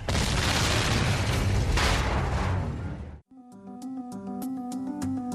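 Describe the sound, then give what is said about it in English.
A huge Martian spaceship explodes in a long, roaring, rumbling blast that fills about three seconds, then cuts off abruptly as a plucked, rhythmic melodic tune begins. “Red Martians were falling from the side of the huge ship, and then it exploded again.”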